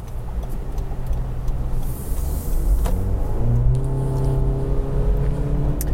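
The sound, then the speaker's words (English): 2023 Honda HR-V CVT engine accelerating on the road, a steady low drone under road noise whose tone climbs briefly midway, then holds at a constant pitch. “The CVT pins you and holds you. Not great, of course. It doesn't sound great. It doesn't sound super refined.”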